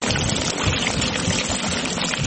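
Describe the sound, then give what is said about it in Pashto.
Water trickles from drip irrigation onto a four-jerib wheat field in a Kandahar village during drought, heard as a steady, even hiss of running water with no pauses and no voices. “د اوبو هغه څاڅکي چې د یو کروندګر کښت ژغوري، له وچکالۍ سره د مبارزې نوې حل لار.”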